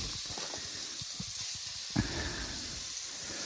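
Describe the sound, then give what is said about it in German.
Minced meat frying in a pan until cooked through and lightly browned gives a faint, steady sizzling hiss, with scattered crackles and one sharper pop partway through. “Und daher werde ich das jetzt hier erstmal schön braten, bis es durchgegart ist und auch etwas angeröstet.”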